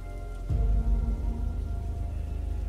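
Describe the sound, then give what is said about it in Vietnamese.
Heavy rain falls with thunder, a steady hiss of rain that is joined by a deep, loud rumble starting shortly after the opening and rolling on to the end. “Cơn mưa mỗi lúc một nặng, tiếng sấm vẫn gầm ở trên bầu trời không ngớt.”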